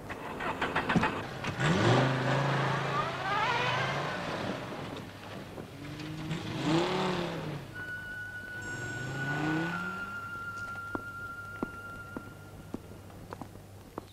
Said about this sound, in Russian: садится в машину и уезжает